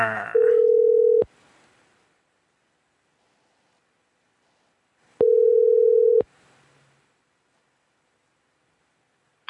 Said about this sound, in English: At the tone, you can leave your message for extension...